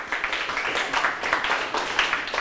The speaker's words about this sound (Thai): ถูกต้องปรบมือให้เพื่อน